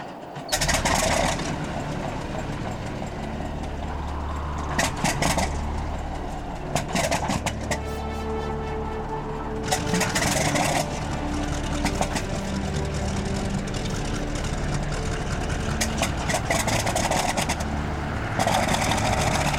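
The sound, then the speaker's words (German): Aircraft engines start and run, giving a loud, continuous rumbling roar with low droning tones. The roar holds steady throughout, broken by several brief surges of brighter hiss. “Gut, Danforth. Starten Sie die Maschinen.”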